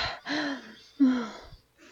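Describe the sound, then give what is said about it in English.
A woman gagging: two strained, throaty gasping bursts separated by short pauses, with a faint breath at the end and no speech. “Hearing you gag like that”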